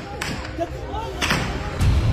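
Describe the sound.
Direct firing in Pakistan-occupied Kashmir produces three sharp gunshot reports, spaced irregularly over a steady background hiss.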